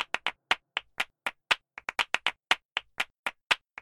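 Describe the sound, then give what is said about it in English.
Phased hand claps forming a music score motif: many crisp, sharp claps in an uneven repeating rhythm, heard alone with no voices or other instruments. “What you're hearing now is the claps.”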